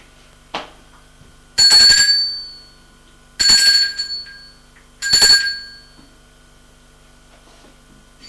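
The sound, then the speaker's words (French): A doorbell rings three times in evenly spaced, bright, high-pitched bursts. A short soft click comes before the first ring, with no talk. “Avant d'entrer chez lui, il va sonner chez elle.”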